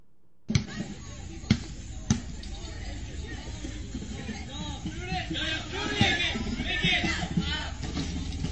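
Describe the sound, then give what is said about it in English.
Kids bouncing a basketball outside while shooting hoops: a few sharp, hollow bounces ring out over a steady murmur of crowd chatter and people talking, the background hubbub swelling a little toward the end. “Kids outside shooting hoops. Band cruises by. Kid sinks one.”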